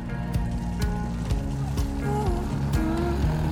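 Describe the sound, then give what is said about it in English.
A tuk-tuk drives through a street. Its small motor gives a continuous low rumble with shifting tones and brief clattering throughout. “Kai, Lucien, and Tommy travel by tuk-tuk. A temple with a huge golden Buddha. The woman rides in her tuk-tuk.”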